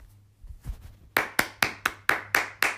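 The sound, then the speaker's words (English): Hands clapping off beat: after a few soft taps, seven sharp, loud claps land at slightly uneven spacing, each with a quick decay. “clap it up, you know. There we go. Go. That was all off beat.”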